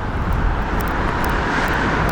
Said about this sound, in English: Everything is so fucking loud. Goddamn cars, fuck off.